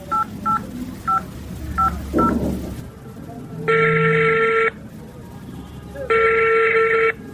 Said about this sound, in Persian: این حالا برش جستی زنگ میزنم.